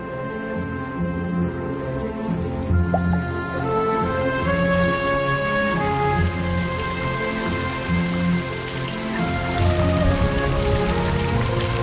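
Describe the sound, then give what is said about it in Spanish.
Rain falling in a forest during a late-summer storm, a steady, dense patter that continues without break throughout. “Las tormentas de finales de verano dan al bosque un respiro. Estas lluvias son buenas para la vegetación, pero duras para sus habitantes.”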